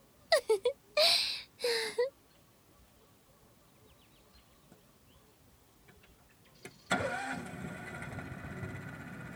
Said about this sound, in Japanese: エンジンかかった、はあ、いい音